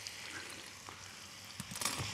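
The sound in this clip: Pasta is tossed into a pan with bacon and its rendered fat, giving a soft, steady, faint sizzle, with a few light stirring clatters near the end.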